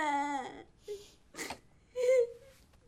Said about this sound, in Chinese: 不许哭啊，听到没有？